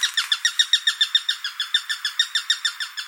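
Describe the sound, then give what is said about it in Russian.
Eurasian sparrowhawk call: a rapid, evenly spaced series of many sharp, high-pitched chirping notes, steady in rhythm and loudness, heard alone. “перепелятник звучит вот так”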